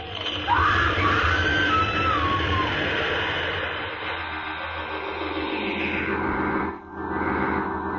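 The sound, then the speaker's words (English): A radio drama effect of a house shaking and caving in: a dense rumbling roar that holds steady for several seconds, a high wavering cry above it early on, and a brief drop near the end. “Something's happening. What? The house. It's shaking. Oh, we've got to get out of here. The house is caving in.”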